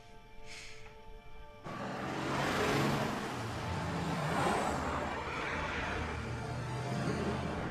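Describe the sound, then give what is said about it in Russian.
Cars drive in a row along a dusty road, a quiet steady engine roar and broad rushing noise that swells in after a softer opening and then stays fairly even, with no talking. “По пыльной дороге в ряд едут машины спецов.”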